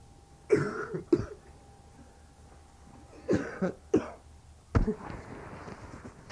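A few short, harsh coughs in separate bursts, paired in quick succession with quiet pauses between, the last one the sharpest.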